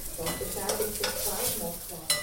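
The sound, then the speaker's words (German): Fleischkäse (meat loaf) sizzles in a frying pan with a steady crackling hiss, broken by a few short, sharp clicks and scrapes as if from stirring. “In der Bratpfanne brutzelt der Fleischkäse.”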